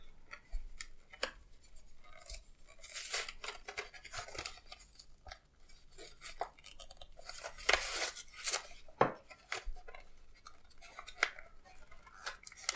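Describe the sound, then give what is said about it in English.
Packaging is opened to get at spoons: faint crinkling, tearing and rustling come in irregular bursts, with a few sharper crackles standing out from the quieter handling sounds. “So, let me open the spoons.”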